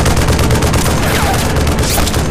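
Heavy gunfire in a combat scene of reconnaissance by fire: a loud, dense, unbroken crackle of rapid shots with no clear gaps between them.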